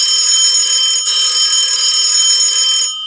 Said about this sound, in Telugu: రాత్రి పదకొండు గంటలయింది పడుకోబోతుంటే టెలిఫోన్ మోగింది